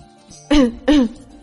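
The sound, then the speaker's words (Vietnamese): Dry cough: two short, rough, voiced bursts in quick succession, like a throat being cleared, heard alone with no talk around them. “Bạch Ngọc Đường đi phía trước ho khan một tiếng.”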